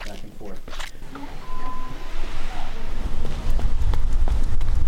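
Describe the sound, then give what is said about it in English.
Running footsteps in new shoes slap quickly and rhythmically on an outdoor sidewalk during short laps, with a noisy background; the steps grow louder in the second half. “runs a few short laps up and down the sidewalk”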